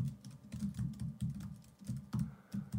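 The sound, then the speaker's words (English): Rapid computer keyboard typing, like dashing off emails: many quick keystrokes in dense bursts and short runs with brief pauses between clusters, steady and fairly faint, with no voices. “when Adderall kicks in, and you start out on your keyboard like”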